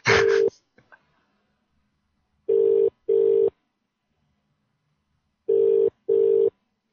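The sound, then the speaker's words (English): A telephone rings out on a call: a short burst, then two steady mid-pitched electronic double rings separated by silence, with no voices. “Pick up the damn phone”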